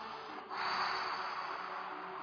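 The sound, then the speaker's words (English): Breath exhaled through the mouth during a breathing exercise: a soft, steady, airy hiss that begins after a brief pause and lasts about two seconds, alone and without any voice. “So simple exercise, again with breathing, inhale, exhale through the mouth. As we exhale through the mouth, we move our neck right to right side”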